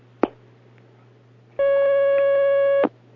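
A telephone line connects for a call-in religious question: a sharp click, a pause, then one steady electronic tone lasting just over a second that cuts off with another click, over a constant low hum.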